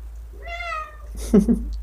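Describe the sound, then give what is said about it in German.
A cat meows once: a clear, drawn-out tonal meow that is fairly loud and heard alone, followed by a short burst of lower, rougher noise. “Meine Katze ist gerade da.”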